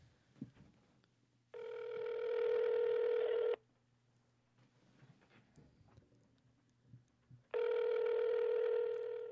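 An outgoing telephone call rings through: two long, steady, buzzy ringing tones, each about two seconds, separated by a quiet gap with faint low hum and small clicks.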